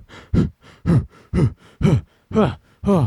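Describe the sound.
A human voice imitates the heavy, rhythmic panting of someone working out on an elliptical machine. Six loud, voiced huffs alternate evenly with softer breaths in a steady exertion pattern.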